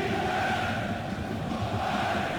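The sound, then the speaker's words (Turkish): At Dolmabahçe, a stadium crowd roars and applauds as Beşiktaş player Leandro Trossard is substituted off, a continuous dense wash of clapping and voices at an even level with no distinct breaks. “Evet, Leandro Trossard alkışlarla kenara geliyor.”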